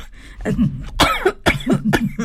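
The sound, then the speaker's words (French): Throat-clearing coughs, a few sharp, rasping bursts spaced roughly half a second apart, with a softer rough clearing sound before them. “j'ai oublié de m'excuser. Un chat dans la gorge.”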